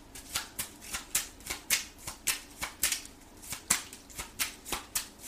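A regular deck of cards is handled during a tarot reading, making many soft, rhythmic flicks and snaps at a fairly faint level.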